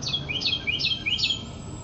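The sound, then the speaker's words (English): Bird chirping: four short, high-pitched chirp phrases repeat at an even rhythm, each made of quick descending notes, fairly faint over a low, steady background noise. “What up, bird?”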